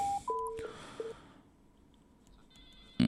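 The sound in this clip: A telephone rings in for an incoming call to a call-in program: a few short electronic tones sound in the first second, then a quiet pause, and a brief loud burst comes at the very end.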